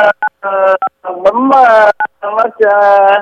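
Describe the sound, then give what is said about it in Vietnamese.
Telephone keypad buttons pressed at random give a few short, bright two-tone beeps, spaced between stretches of talking. “tự nhiên bấm vào cái chỗ nó tắt mà anh. Ông ơi. Cái động tác của bạn này công ty khác thôi. Tay chân ông cứ bấm tầm bậy, ông bấm tầm bậy tầm bạ vậy”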